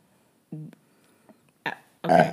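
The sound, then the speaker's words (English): A person burps: a short, low, voiced belch, followed by a couple of brief, louder throaty vocal bursts. “sorry, burp, sorry”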